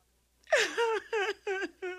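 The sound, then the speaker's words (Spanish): A woman crying in distress: one long wavering wail that falls in pitch, then a few shorter, choked sobbing bursts, each rising and fading. “¿Por qué estás llorando?”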